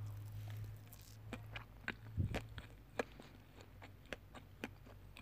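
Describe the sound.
Cupcakes are being chewed and eaten with faint, moist bites and many small irregular crunching clicks. No one speaks.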